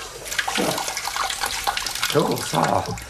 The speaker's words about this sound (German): Viel Wasser. Überall viel Wasser. So, das ist genug. Jetzt Wasserhahn zu.